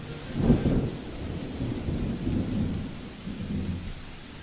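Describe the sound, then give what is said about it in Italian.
Heavy rain with thunder over flooded streets on the outskirts of Milan. A deep rumble swells early, then rolls on beneath a steady hiss of rainfall, with no voices. “Piove a Quartoggiaro, periferia di Milano. Le strade sono allagate”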